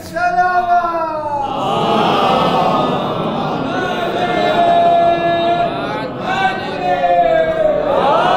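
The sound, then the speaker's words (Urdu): Crowd shouting the Nara-e-Haidari slogan at a religious gathering: one loud voice opens, then massed voices roar together in a strong, sustained chant. “ایسا نہ ہے ہاتھوں کو اٹھا کے نعرہ حیدری، مزہ نہیں آیا بلند آواز سے نعرہ حیدری”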